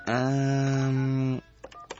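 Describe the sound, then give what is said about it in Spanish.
A phone tone sounds while a number is being dialed: a loud, steady buzzing tone holds for over a second, then cuts off and is followed by a couple of brief, softer beeps. “Déjale, voy marcando a Andrea, ¿sale?”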